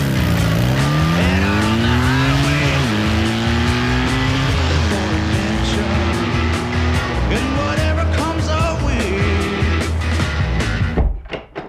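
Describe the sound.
Motorcycles riding off together, engines revving loudly and climbing in pitch through several gear changes, a continuous roar that cuts off abruptly at the end.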